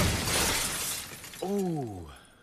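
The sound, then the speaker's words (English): Glass shattering as skaters smash through the glass of a robot city: a loud, noisy crash lasting over a second, followed by a voice calling out with a falling pitch. “They smash through the glass of the Robo City now, watched by their friends.”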